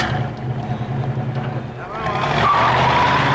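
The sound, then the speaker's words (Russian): A car engine rumbles and pulls away from a car wash, swelling louder toward the end with a rising whine. “Трогается, уезжает с автомойки.”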